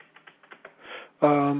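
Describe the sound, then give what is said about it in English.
Keyboard typing as a case number is entered into a chat window: a handful of light, quick clicks, then a brief swell of noise before a voice begins speaking. “Okay, I'll type in the chat window here the case number, and after I get it typed, I'll speak it here.”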